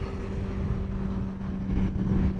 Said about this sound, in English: The small white Alia aircraft buzzes down the runway and lifts into the sky above Utah's snow-capped mountains.